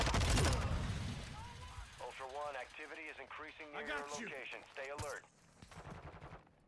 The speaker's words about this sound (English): Is that you shooting?